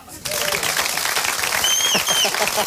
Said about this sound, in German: Ein extra Applaus für Sprout.